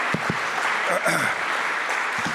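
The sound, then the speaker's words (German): Audience applause at a poetry lecture, a steady wash of clapping that holds at an even level for about two seconds, with voices audible over it. “Sie haben angefangen zu klatschen und ich dachte, das heißt, ich soll anfangen.”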